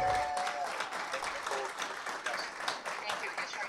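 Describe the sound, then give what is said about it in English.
Audience applause welcoming Representative Walsh: dense, steady clapping from many hands that holds at an even level throughout, with a voice briefly over it at the start. “you guys give Representative Walsh a hand and welcome him here, would you?”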